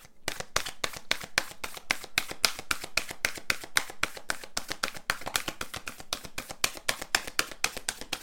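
A deck of oracle cards being shuffled by hand, giving many quick, crisp slaps in a steady, even rhythm that continues throughout with no talk.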